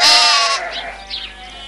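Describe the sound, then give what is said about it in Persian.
A young goat bleats with a loud, wavering, harmonic cry that fades into fainter, breathy bleating toward the end. “بزغاله یه سرکش بیادب.”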